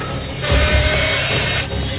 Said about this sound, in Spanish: Se activa de nuevo la cinta y se sienta es una sierra de cinta. La sierra despedaza a los animales por la mitad mientras avanzan colgados.